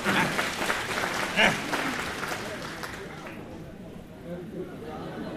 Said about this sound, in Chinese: 各位鼓鼓掌